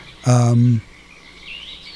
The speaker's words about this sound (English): The birds did not fly to Florida for their vacation that year.